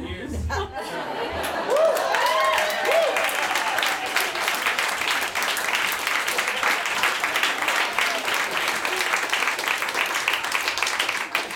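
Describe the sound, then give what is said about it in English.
Sustained audience applause greets a surprise husband brought into the audience during a stand-up set, dense and steady throughout, with a few voices rising briefly in the first seconds. “Oh, more applause. This is great.”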